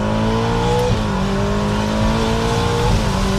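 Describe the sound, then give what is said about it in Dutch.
A Ferrari Amalfi Spider engine roars at full throttle after a downshift to second gear at about 70. The loud, sustained engine note steps abruptly in pitch twice as the gears change. “En dan schakel je bijvoorbeeld terug naar z'n 2 bij 70 en dan vol op het gas.”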